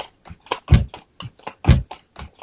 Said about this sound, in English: dealing the cards out